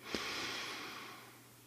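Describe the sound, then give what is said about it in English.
A slow, deep breath drawn in through the nose or mouth, a steady airy hiss that starts with a small catch and then fades gently over more than a second, heard alone without talk. “Take slow and deep breaths. Let's try this out. Relax. You might even want to close your eyes and just breathe in.”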